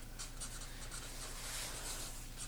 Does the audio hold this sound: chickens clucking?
no